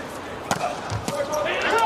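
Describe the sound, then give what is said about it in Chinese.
Volleyball serve struck during a fifth-set match involving Slovenia, tied at 17: two sharp ball impacts about half a second apart stand out over continuous background noise. “戈莫卡来发球，十七平，”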